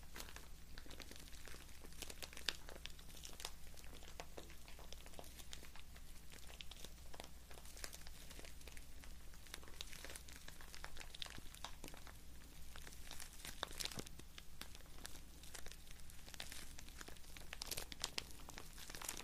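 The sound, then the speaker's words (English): Crinkling and crumpling material played as a soothing trigger sound, heard as a steady, dense run of many small crisp crackles with no pauses and no voices. “I love sounds of crinkling.”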